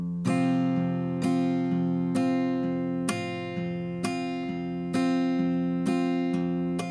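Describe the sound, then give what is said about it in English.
Acoustic guitar played with the thumb striking the low E string and the index finger lightly strumming the remaining strings, giving a steady repeating bass-note-and-strum pattern at an even moderate tempo with soft accents and no voices. “All you're gonna do is take your thumb, have it hit the low E string, and then the top of your index finger is gonna strum the rest of the strings. So just go ahead and repeat that. Here's how it will sound.”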